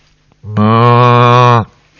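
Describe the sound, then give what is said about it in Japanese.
A cow moos once, a long, steady, loud low-pitched call with rich harmonics that starts abruptly and stops cleanly, heard alone with no other sounds. “牛さん。ねえ、こういう家畜を飼ってたんです。”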